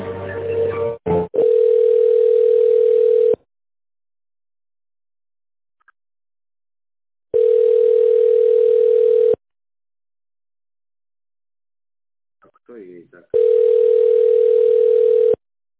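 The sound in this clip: Telephone line tone while a call is put through to another person: a steady single-pitched tone in three long beeps of about two seconds each, separated by longer silences, after a brief crackle at the start.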